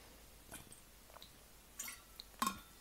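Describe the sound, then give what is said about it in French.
Faint sipping and swallowing as someone takes a little water, a few soft, wet clicks and gulps spread over a quiet background. “je vais prendre un petit peu d'eau”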